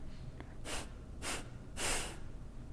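Three-part breath exhalation: three breathy, hissing bursts of air, evenly spaced and each lasting about a fraction of a second, the last slightly louder and longer, over quiet background.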